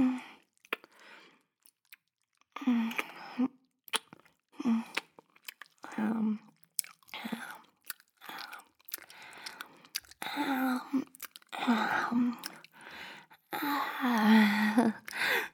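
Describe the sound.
Gum being chewed, with many short, wet, smacking mouth sounds in irregular bursts and soft whispered talk between them.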